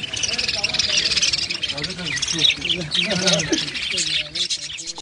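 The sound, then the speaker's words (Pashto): Many birds chirp and twitter nonstop in a bird-market street in Jalalabad lined with bird-selling shops, a dense, bright chatter while a voice talks over it throughout. “دا په جلال آباد کې د مرغانو د کوڅې په نامه ده. په دې کوڅه کې د شلو کلونو څخه زیات وخت کېږي چې د مرغانو د پلورلو شل دوکانونه موجود او ډول ډول مرغان پکې پلورل کېږي.”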